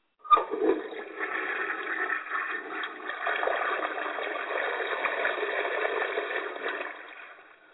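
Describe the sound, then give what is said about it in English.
Water going down a drain: a short click, then a steady rushing, gurgling flow that holds for several seconds before fading out at the end. “Yeah, there it was, the movement down the drain.”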